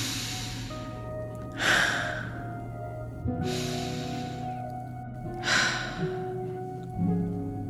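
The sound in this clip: Slow breaths in through the nose during a guided breathing practice, about four soft airy inhales and releases spaced evenly over a steady, quiet sustained tonal drone.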